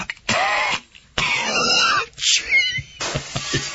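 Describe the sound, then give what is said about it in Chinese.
Coughing from an elderly general, a few harsh, rasping coughs and throat-clearing bursts separated by short silences, fairly loud and heard alone. “咳嗽的不是别人，是老将军黄忠。”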